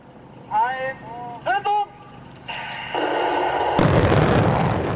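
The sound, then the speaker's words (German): Explosive charges bringing down a huge bridge in a demolition: brief voices come first, then a deep, broad rumbling blast sets in and carries on steadily to the end. “Man hat richtig gesehen, wie die eingebrochen sind. Das sah total cool aus. Und dass so ein kleiner Sprengstoff so eine riesige Brücke einstürzen kann.”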